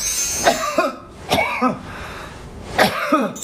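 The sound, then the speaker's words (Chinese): Coughing from cold phlegm: three separate bursts of short, clear, fairly loud coughs, each a quick double hack, with brief quiet gaps between them. “听声音，这是咳嗽的声音，它会有特色。”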